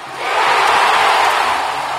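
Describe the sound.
Cheering from a home hockey crowd of more than 7,700 Florida Everblades fans at Germain Arena swells quickly into a loud, sustained roar that barely eases.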